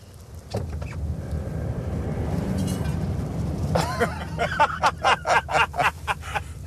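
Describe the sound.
A car's engine starts and the car pulls forward with an inflated balloon inside. A low, steady motor drone swells, then gives way to a run of short, louder noises near the end.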